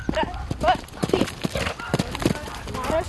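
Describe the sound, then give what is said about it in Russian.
Hooves of a ridden horse clip-clopping in a riding arena during jumping training, a steady run of many sharp, irregular hoofbeats that continues throughout. “Без труда верхом на коне преодолевает различные препятствия.”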